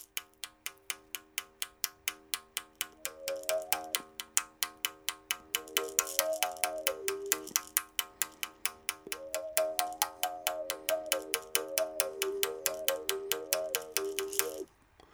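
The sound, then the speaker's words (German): A thin stick strikes a taut liana string many times without a mouth resonator, giving rapid, evenly spaced dry taps on one unchanging pitch, faint and steady throughout. “Ich schlage jetzt erstmal mit einem dünnen Stöckchen diese Lianenseite an, noch ohne Mundhöhlenresonator, und wir merken, klingt überhaupt nicht besonders.”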